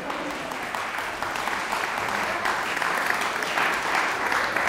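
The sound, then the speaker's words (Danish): Audience applause at the welcome before a string concert, sustained even clapping from a full crowd that holds a steady level throughout. “Nu er det ikke mig, vi skal spille. Vi må vente lidt med applauserne.”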